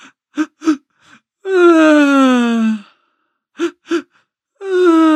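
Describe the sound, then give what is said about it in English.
A hurt or sad child cries. A few quick, sharp gasping breaths in lead into a long, loud, wavering wail that falls in pitch. Then two more gasps come, and a second wail begins. “Do you hear those quick breaths in? They. And then that sound that comes out”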